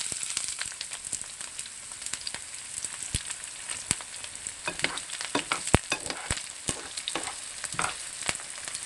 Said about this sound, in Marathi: मोहरी तडतडल्यानंतर कांदा घालूया.